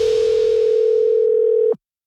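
A telephone dial tone plays before a radio phone prank call: one steady, loud, unbroken mid-pitched tone that holds alone and then cuts off abruptly near the end.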